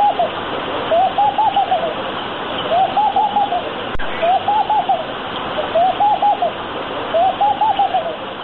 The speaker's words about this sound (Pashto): د موسیچي په غږ سره